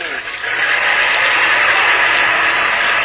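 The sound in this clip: An airplane engine roars as the plane takes off for stunt flying in a drama. A loud, steady, noisy drone swells after a brief lull at the start and then holds.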